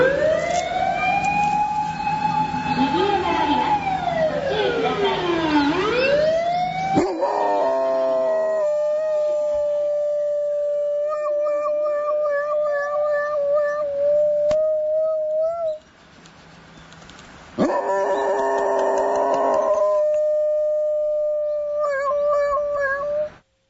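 A wailing emergency siren sweeps up and down, and a dog howls along with it in long, wavering, siren-like tones that continue in strong bursts with a brief lull partway through.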